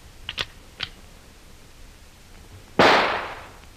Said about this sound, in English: Here is the rifle, Hannes. Let me have it. This will be a little warning for them. A taste of what they are to get later.